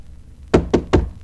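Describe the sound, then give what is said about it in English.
Knocking on the wooden door of a lighthouse keeper's home: three firm, evenly spaced knocks, loud and clear against a quiet background. “We went directly out and knocked on John's door.”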